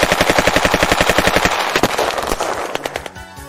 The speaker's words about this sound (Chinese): 政府开枪了，政府杀人了。